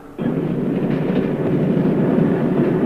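A train running on rails, used as a radio drama sound effect: a steady, low rumbling roar starts abruptly after a moment of quiet and continues unchanged to the end, with no talk.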